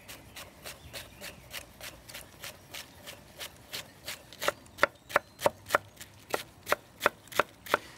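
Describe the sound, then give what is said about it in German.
A knife chops pointed cabbage into thin strips on a board in a steady, even rhythm of many crisp taps, growing louder and sharper in the second half, with no voices. “Aber du schneidest den in dünne Streifen, ne? Ich schneide den Spitzkohl in dünne Streifen,”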